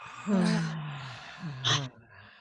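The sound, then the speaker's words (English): Deep breaths let out through the mouth during a group breathing exercise: two voiced, sighing exhales, the first longer and the second shorter, each sliding slightly down in pitch over a breathy rush of air. “We're gonna take a deep breath with me. Take a deep breath through your nose. Let it out through the mouth.”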